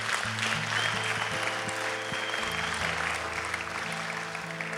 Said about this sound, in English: Can we give the Lord a hand?